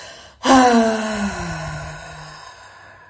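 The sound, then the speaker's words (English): A deep exhale through an open mouth during guided breathing practice: a voiced, sighing breath starts abruptly and loudly, then fades steadily with a gently falling pitch over about two seconds. “Open the mouth, exhale.”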